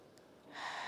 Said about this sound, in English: All right, so deep breath in.